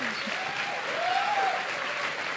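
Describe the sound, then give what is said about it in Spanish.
Audience applause for an award-winning guest: a dense, steady wash of clapping that stays at an even level from start to finish. “un aplauso para ella”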